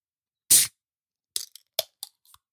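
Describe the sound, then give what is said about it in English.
A chocolate cream coffee drink is cracked open with one sharp, bright crack, followed by a handful of fainter, brief clicks and ticks spread out over the next second. “I just realized that I got a chocolate cream for this coffee. I'm going to crack this bad boy. Let's do a little bit of ASMR here.”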